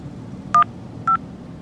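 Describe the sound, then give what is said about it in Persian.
Two short touch-tone beeps as a phone number is dialed to call a wife and make up after an argument, each a brief, clean electronic tone separated by a pause over a low background hum. “نه خودم الان زنگ میزنم، از دلش در میارم.”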